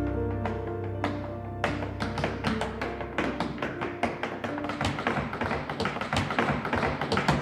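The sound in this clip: Tap-dancing steps carry a song transition: crisp, rapid metallic taps over sustained musical tones, sparse at first and then turning into a dense, fast stream of clicks after about a second and a half.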